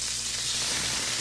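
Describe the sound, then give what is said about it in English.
Smash burgers sizzle on a hot griddle, beef patties topped with melted cheese, giving a steady, even hiss of frying fat that holds without a break for the whole moment. “Stop dreaming and start eating. Fresh, juicy, award-winning smash burgers are sizzling right now at JC's North on the corner of Rockton and Riverside.”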